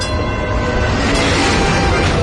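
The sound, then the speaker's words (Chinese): A popular tram runs on its rails with a steady, unbroken rumble and hiss that holds an even loudness throughout, with no distinct clacks or separate events. “网红有轨电车”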